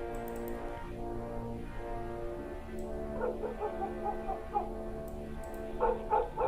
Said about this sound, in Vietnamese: Có mấy con chó ở nhà đầu bên kia vẫn cứ sủa sang ghê lắm.